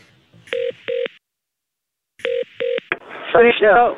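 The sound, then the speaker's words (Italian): Telephone keypad tones as a number is dialled to call hotel reception: two steady beeps, a pause, then two more beeps and a short blip, after which a voice begins speaking. “Ma io chiamo la reception. Chiama la reception.”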